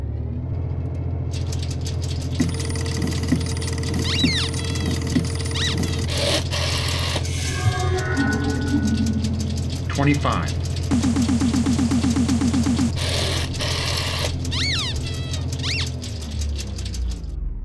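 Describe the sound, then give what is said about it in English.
A whirring, clattering machine-like effect plays as a random number generator runs to pick sky coordinates. It carries a steady low hum with ticking patter and a few short chirps, lasting nearly eighteen seconds. “And I will now run the random number generator.”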